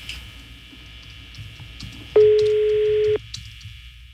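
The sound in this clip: A telephone being dialed, calling a banquet service, gives one steady electronic tone lasting about a second, clearly louder than the faint background noise around it.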